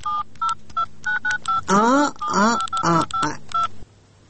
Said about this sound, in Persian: من زنگ میزنم